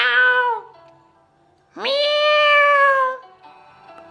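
A cat meows twice during a children's folk tale: a short falling meow, then a pause and a longer, drawn-out meow that rises sharply and holds steady. Both are clear and alone, with no voice over them.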